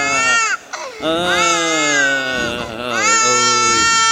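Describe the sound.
An infant cries in loud, drawn-out, high-pitched wails, broken by a brief gasping pause early on, then rising again in several strained, wavering cries.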